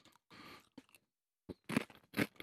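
A crunchy snack is chewed during a tasting game, with several short bursts of brittle crunching broken by brief silences. The crunches get louder toward the end.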